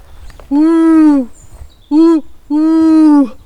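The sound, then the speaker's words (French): An adult voice imitates the hoot of an eagle owl, a large owl heard at dusk: three low, drawn-out 'ouh' calls, a long first hoot, a short second and a long third, with faint background noise between them. “on allait écouter un rapace qui est énorme, qui vit là-bas, qui chante mais que la nuit, au crépuscule en tout cas. C'est le hibou grand duc. Quand il chante, ça fait”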